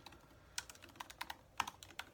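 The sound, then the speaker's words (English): Quiet typing on a computer keyboard while writing in a chat during an online fantasy football mock draft: a quick, irregular run of many light key clicks, soft and without any talk. “I'm just writing in the chat”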